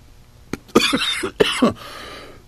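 Coughing from someone who has inhaled a piece of spinach while eating: a fit of several harsh, throaty coughs in quick, uneven bursts, fairly loud and alone, then quiet.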